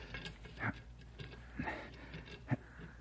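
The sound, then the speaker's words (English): Faint ticking comes from a machine being repaired after its metal soundproofing sleeve is slid back. Soft, fairly evenly spaced ticks run through the quiet clip, and a few stronger clicks stand out among them. “Hey, the ticking sound. Is that... That's what we're after”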